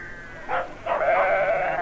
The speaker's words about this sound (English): You need all the hands you can get with lambs about. So we all help.